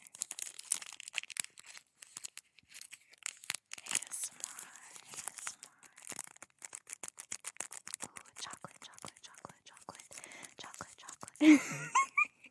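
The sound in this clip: Crinkly wrapping is torn and crumpled as a large Valentine's Day gift package is opened close up for ASMR. Many soft, irregular crackles and rips run throughout, with a louder rustling burst near the end.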